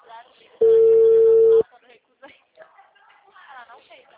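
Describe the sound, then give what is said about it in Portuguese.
A WhatsApp phone call gives one loud, steady mid-pitched ringing tone lasting about a second, with people talking quietly before and after it. “Vou ligar pelo WhatsApp.”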